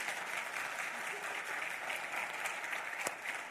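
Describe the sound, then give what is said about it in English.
An audience applauds to welcome the speaker's wife as she stands, a dense and steady wash of clapping that holds at an even level throughout. “I wanted her to stand up for just a minute, and I wanted to invite you to give her a warm welcome.”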